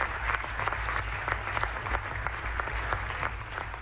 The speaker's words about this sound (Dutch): Ja, tegen alle verwachtingen in gebeurde het in Brussel dan toch. Een meerderheid is er al klappend en juichend voor de natuurherstelwet.